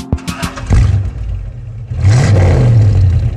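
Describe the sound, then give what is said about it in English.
A car starting: a few quick cranking clicks, then the engine catches with a loud burst and settles into a low idle before a second surge of revving, loud and alone. “Here's the sound of a car starting.”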